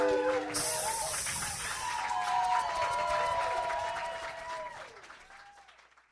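Applause and some cheering from a live storytelling show's audience greet the first storyteller, starting at full strength and then gradually fading out to near silence over the last couple of seconds.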